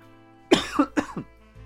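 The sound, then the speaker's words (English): Coughing: a quick run of several harsh, throaty coughs in close succession, followed by a softer trailing breath. “oh my god, I'm coughing.”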